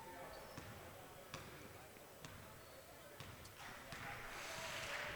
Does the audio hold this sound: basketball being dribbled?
yes